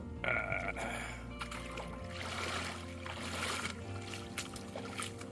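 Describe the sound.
A kayak being paddled through water gives a steady wash of splashing and trickling strokes with a low hum underneath, moderately loud throughout, with no clear pauses between strokes.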